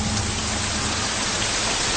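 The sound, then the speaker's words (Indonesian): Heavy rain pours down in a steady, dense hiss that stays loud and even throughout, with no voices. “Namun belum sampai ke parkiran, hujan keburu turun deras.”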